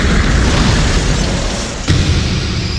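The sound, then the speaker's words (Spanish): An airplane explodes in a dense, loud roar with a deep rumble. About two-thirds of the way through, a sudden sharp burst cuts in and the roar carries on after it. “¡El avión va a explotar! ¿Pero qué dices? ¡Es una broma! ¡Es una broma! Nos han echado del avión y todo porque Browning ha tenido una pesadilla. Lo he visto. ¡El avión va a explotar! ¡Va a explotar!”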